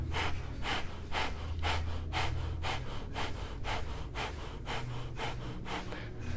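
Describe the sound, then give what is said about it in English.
Forceful nasal exhalations in a yoga breathing exercise, the belly pumping air out in a quick, steady series of soft, rhythmic snorting puffs. “So I really exhale forcefully through my nose and bring my belly in at the same time. It's almost like the belly is a pump.”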